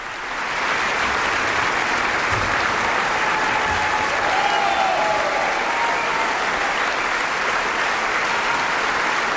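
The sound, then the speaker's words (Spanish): A concert audience in Carinthia applauds after Mozart's Piano Concerto No. 20 in D minor, K. 466, played with the Camerata Salzburg. Dense, sustained applause rises quickly and holds at an even, loud level for about nine seconds. “Y ya escuchamos cómo el público de Carintia, entusiasmado en este concierto celebrado el pasado 2 de agosto, reclamaba al intérprete, al joven pianista Lucas Sternad,”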